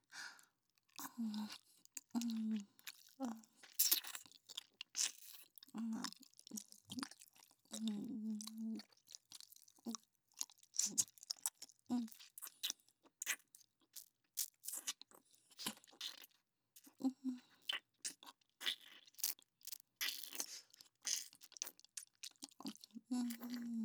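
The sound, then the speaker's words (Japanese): Faint, wet licking and smacking mouth sounds as something is licked off a hand, with many small irregular clicks, slurps and soft crunching bursts separated by brief silences, and no talk. “せっかく手に出していただいたのですから、このまま舐めとってしっかり味わわせていただきますね。”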